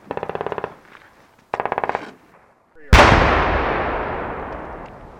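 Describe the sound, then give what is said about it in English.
Two rapid bursts of automatic gunfire, then a single loud explosion with a long rumbling decay, from demolition charges and battle simulation devices set off during military pre-deployment training with armoured fighting vehicles. “Those are demolitions of charges not used in the previous attack. They're a battle simulation device designed to ensure that soldiers are exposed to the simulated effects of loud munitions which they might encounter and test their reactions.”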